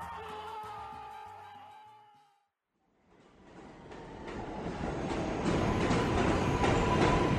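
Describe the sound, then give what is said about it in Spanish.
A subway train rumbles with a broad, rushing roar that builds steadily in loudness. It follows a short tonal stretch and a brief silence, then keeps growing to a sustained, loud clatter. “El metro es lo que más extraño en la pandemia hay gente de todas partes, música, o sea, yo amo el metro, lo amo.”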